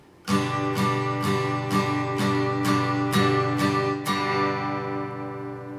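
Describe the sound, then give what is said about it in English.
Steady eighth-note strumming of chords on a stringed instrument in a worship song: about nine even, bright down-and-up strokes at a moderate tempo, with the final chord left ringing and fading. “Eighth note strumming, which sounds like this.”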